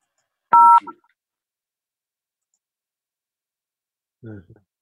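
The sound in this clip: A single telephone keypad button tone sounds as a short, loud dual-pitched beep with a faint click after it. Silence follows, then a brief fragment of a voice near the end.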